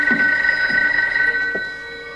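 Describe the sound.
A telephone ringing: a steady, bright electronic ring that sounds alone throughout with a few faint low knocks, easing slightly quieter toward the end.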